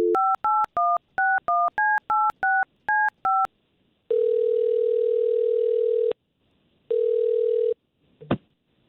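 Keypad tones of a telephone number being dialed to place a call: a quick run of about ten short dual-tone beeps, then two long, steady ringback tones separated by a pause, ending with a brief click.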